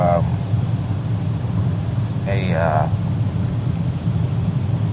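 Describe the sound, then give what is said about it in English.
Car driving along a road, a steady low rumble of engine and road noise that runs continuously. “I just kind of ramble as I'm driving along here.”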